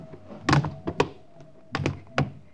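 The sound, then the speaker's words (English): Dull thuds of people landing on a rooftop after jumping across from an adjoining roof, several irregular soft impacts in small clusters, with no talk. “All right, let's jump. Try to land as quietly as you can.”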